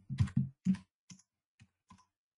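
A few quick key presses on a computer keyboard as a word is typed, three louder clicks close together followed by three softer, more spaced taps, with no talking.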